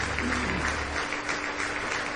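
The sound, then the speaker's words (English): A church audience claps in praise during an evening service, a dense, continuous patter of many hands at a steady level throughout. “Do you give Him one more hand clap of praise tonight?”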